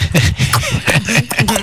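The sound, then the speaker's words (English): A voice imitates a weird alien throat sound from a film, making a quick run of rough, loud clicking and croaking bursts with no words. “it's got the weird throat sound that we saw”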